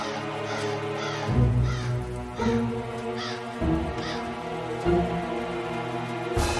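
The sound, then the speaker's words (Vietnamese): A flock of panicked crows caws over a village on a winter night: harsh, raucous calls repeat at intervals of roughly a second or more, each loud and grating, over a steady low drone. “Đám quạ cũng hoảng loạn, vỗ cánh bay tán loạn. Tiếng kêu quang quát của nó càng thất thanh, rùng rợn hơn.”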